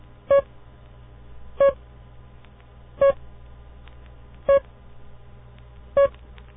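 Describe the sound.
Five single short beeps, the signal tone standing for the letter E, spaced evenly at a steady, unhurried rhythm, each a mid-pitched, slightly buzzy tone over a low constant hum.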